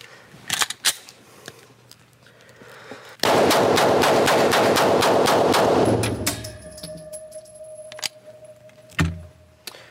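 A gun fires a fast, evenly spaced string of many loud shots in under three seconds. Scattered clicks and handling noises come before and after the burst.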